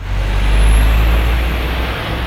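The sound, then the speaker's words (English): Traffic roars along a busy high street in Clapham, South London, with a loud, continuous low rumble from passing vehicles and a faint high whine above it. “Clapham is a busy neighbourhood in South London, and as traffic roars by the high street”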